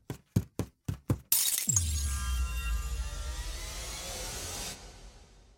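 A glass window shatters as someone jumps through it. Five sharp knocks come first, then a sudden loud crash and a long ringing spray of falling shards that slowly fades away.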